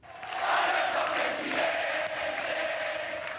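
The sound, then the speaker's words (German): Peronist supporters in Argentina cheer their new president, Alberto Fernández, in a dense, sustained crowd roar that swells quickly at the start and holds loud to the end. “So hört es sich also an, wenn Peronisten in Argentinien ihren neuen Präsidenten feiern.”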